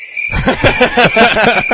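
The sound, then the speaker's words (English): Crickets chirping in a dense, continuous high trill with a rough, pulsing texture, starting after a brief quiet moment and running alone for under two seconds. “And then the other, that's crickets.”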